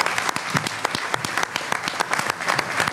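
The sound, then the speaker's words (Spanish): An audience applauds with dense, steady clapping that stays loud throughout. “Pido un aplauso por nuestros hermanos iraníes.”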